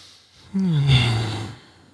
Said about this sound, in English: They recommend you take a deep breath in and then a hum out.